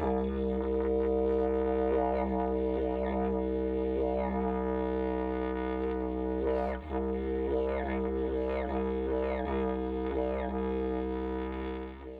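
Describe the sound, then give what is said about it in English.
Didgeridoo being played in one continuous deep, buzzing drone at a steady low pitch. Its tone shifts in a rhythmic, wavering way throughout, with no voices. “And if you're still confused on what a didgeridoo sounds like, you heard it in the intro, but I'll play it again because it sounds like this.”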